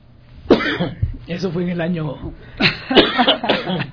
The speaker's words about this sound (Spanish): El frío y el sol juntos a veces hace que pasen estas cosas en vivo, ¿no? Unas pocas toses por ahí